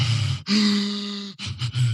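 A beatboxer imitates shallow, hyperventilating in-breaths: loud, airy gasping with one long drawn intake followed by a few quick, choppy breaths, with no other sound.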